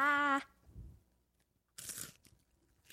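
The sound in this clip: Crunchy hot fries being bitten and chewed up close for ASMR. A short tonal note opens, then a pause, then a brief burst of crisp crunches.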